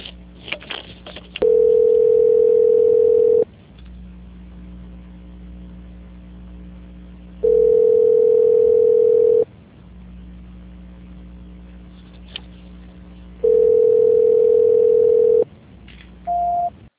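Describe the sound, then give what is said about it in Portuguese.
Telephone tones play while a call is being transferred: three long, steady electronic tones of about two seconds each, separated by pauses of low hum, then a shorter, higher beep at the end. “Senhora, também só um minuto, por favor, que eu vou transferir a sua ligação.”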